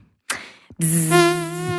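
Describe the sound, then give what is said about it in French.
A human voice imitates a tiger mosquito's buzz with a steady, nasal, harmonically rich drone held for about a second, preceded by a brief breathy onset and a short pause. “Vous faites bien le moustique.”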